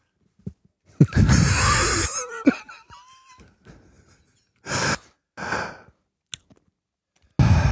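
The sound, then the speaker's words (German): A loud, sharp inhalation is abruptly cut off by pressing a mute button and drops into sudden silence. Several shorter breathy bursts and a brief click follow, each ending just as suddenly. “Beim laut Einatmen die Mute-Taste drücken. Das macht ein ganz witziges Geräusch.”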